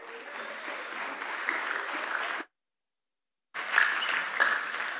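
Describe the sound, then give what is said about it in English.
Audience applause at a church service welcoming a guest missionary speaker. Steady, even clapping runs for a couple of seconds, breaks off into a second of silence, then resumes just as full. “Brother Joseph's going to come and do that tonight. Let's give him a warm welcome.”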